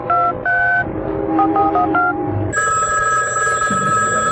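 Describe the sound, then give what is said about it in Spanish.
A telephone being dialed and then ringing: a quick series of keypad tones, followed by a steady electronic ring tone that holds to the end, with no talk. “comenzó, como siempre, a dar instrucciones por teléfono a su eficiente asistente, María Teresa.”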